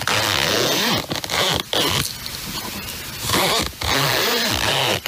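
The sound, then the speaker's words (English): A zipper is zipped back and forth in a few quick, loud, rasping strokes, heard alone with brief pauses between runs. “We all know it's a zipper, but what is it on?”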